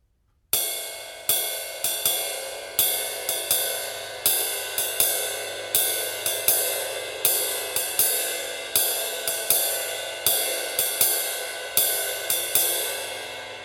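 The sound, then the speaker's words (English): A ride cymbal played alone and very slowly in a basic 4/4 pattern of quarter notes with dotted-eighth and sixteenth figures: many bright, shimmering strikes, each ringing out and decaying before the next, in an even repeating rhythm. “So if we play it very, very slowly on just the cymbal, it sounds something like this.”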